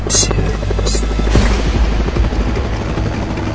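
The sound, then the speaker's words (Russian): Helicopters in a military combat scene: a loud, continuous rotor drone with a low, pulsing thump that holds steady throughout without pause. “Вертолеты ждут сигнала.”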